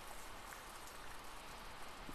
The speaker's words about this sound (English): The rain falling.